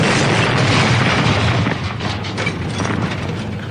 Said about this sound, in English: The heavily armoured limousine exploded in an orange-blue flash.